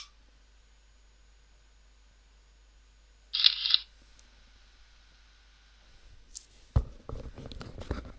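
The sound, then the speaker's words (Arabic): A ClearReader Plus reading device starts a scan after its scan key is pressed. It gives one short, bright mechanical burst like a shutter, after long quiet, and fainter scattered sounds follow later. “نقوم الآن بتشغيل الجهاز لمعرفة خصائصه. نضغط على مفتاح سكان أو المسح.”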